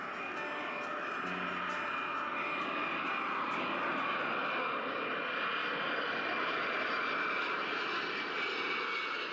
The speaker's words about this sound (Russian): Ту-154 взлетает в вечернее небо.